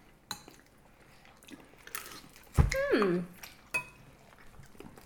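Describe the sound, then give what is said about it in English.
Biting into and chewing a spoonful of enchilada hominy soup: a few soft crunching and moist mouth sounds, with light clinks of a spoon against a bowl. “All right, well, I'm going to take a bite.”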